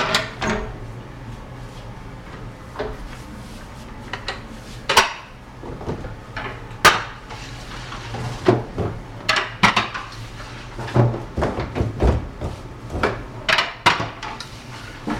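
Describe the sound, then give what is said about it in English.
Bread being loaded into an oven, slid in with a wooden-headed peel, gives many sharp clanks, knocks and rattles of metal and trays in an irregular rhythm, with no talk. “I'll load the oven up there with some bread.”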